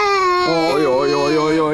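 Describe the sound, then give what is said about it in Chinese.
A baby crying loudly without pause, a sustained wail whose pitch drops partway and then wavers up and down. “一直哭啊！你怎么哄也不行。”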